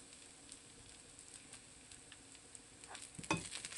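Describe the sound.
Soft sizzling as green and red chillies are stirred with turmeric in a pan. A low, steady hiss runs throughout, with a brief scrape of the spoon near the end.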